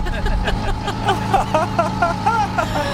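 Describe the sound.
A small cargo moped's engine runs with a rough, noisy putter, a steady motor drone with voices heard over it.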